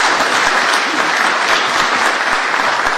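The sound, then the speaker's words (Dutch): Applause from the chamber greets newly sworn-in members of the Raad van Almanswaard at a council meeting, a dense, steady patter of many hands clapping at an even level throughout, with no voices above it. “Dan bent u nu volwaardig raadslid van de Raad van Almanswaard. En daarmee is die compleet. Dat is een applausje waard.”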